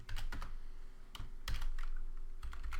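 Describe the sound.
Typing on a computer keyboard: many quick, light keystrokes clatter in uneven bursts, faint and alone with no talk.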